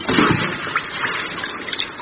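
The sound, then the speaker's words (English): Water sloshing and splashing as a person gets into a swimming pool, a steady, broad wash of watery noise with small surges. “Watch out for the tidal wave. She's getting in the pool.”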